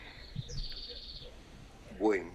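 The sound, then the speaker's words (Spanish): Faint bird chirps from a household with family around, heard in the background of a call: one drawn-out chirp early on and a sharper rising call near the end. “Con pájaros y perros. Sí, de fondo, con toda la familia ahí.”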